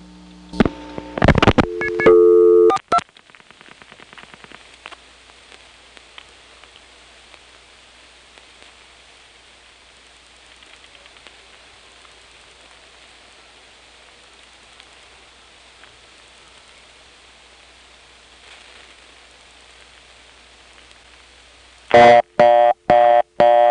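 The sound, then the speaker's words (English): A telephone reorder tone from a touchtone converter after only two digits were dialed: brief loud dialing bursts at the start, a long stretch of faint hiss, then a loud, rapidly pulsing tone repeating a few times at the end. “This is the touchtone converter putting on this reorder.”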